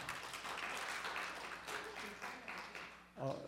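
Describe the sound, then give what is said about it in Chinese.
Quiet applause from an audience at a church thanksgiving gathering: soft, steady clapping runs for about three seconds, then a voice briefly breaks in at the end. “我们给 Michael 跟 Deborah 一个掌声，”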